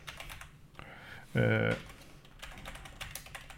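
Fingers type quickly on a computer keyboard, sending out uneven bursts of soft clicks. Partway through, a short voiced sound breaks in before the tapping resumes.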